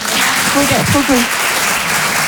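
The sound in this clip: Applause from a comedy show audience, a dense, steady wash of clapping that runs through the whole moment, with a voice talking over it.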